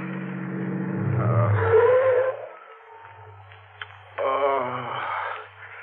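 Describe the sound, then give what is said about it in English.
A car engine rumbles low and steady as the vehicle pulls up at the side of the road near a gas station closed for the night. The hum carries on, dipping midway and then continuing. “Pull up at the side of the road. Look, up ahead, a gas station closed for the night. We can park there.”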